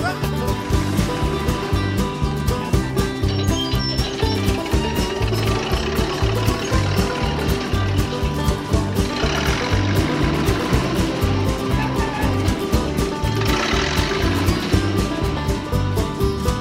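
A farm tractor engine runs continuously with a loud, steady low throb and a rapid, regular chugging pulse that holds unchanged throughout.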